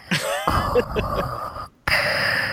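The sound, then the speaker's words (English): A person breathes heavily into a microphone, making two long, loud, breathy bursts separated by a brief moment of silence. “And then she can breathe into her microphone.”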